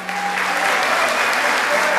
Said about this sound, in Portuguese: Se é verdade o seu coração, aplauda o Senhor.